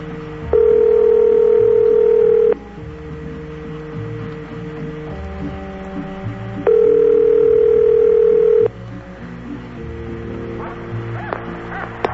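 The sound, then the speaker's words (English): Ringing tones sound during a phone call: two long, steady tones of about two seconds each, separated by a pause of roughly four seconds, over a faint background. “It's ringing. It's still ringing.”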